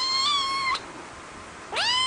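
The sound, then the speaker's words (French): A pet cat meows twice: the first cry is held level and fairly loud, and after a short quiet pause the second one starts low and climbs upward in pitch. “C'est le nom de mon chat Covid. Ah, il est si mignon.”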